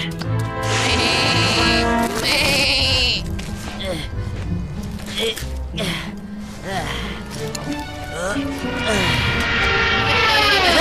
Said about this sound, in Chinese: 这些石子真是越来越大了。天气预报可没说今天会下小羊啊！别担心，小羊，你很快就会安全的。